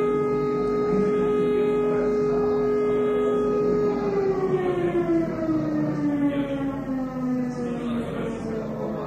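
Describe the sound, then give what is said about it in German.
A district-wide fire alarm siren wails loud and alone. Its sustained tone holds steady, then slowly glides lower in pitch, with a rhythmic rise-and-fall pulsing in the upper harmonics. “Wir haben hier die Sirene für den ganzen Landkreis. Also wenn irgendwo was brennt, dann geht hier die Sirene los.”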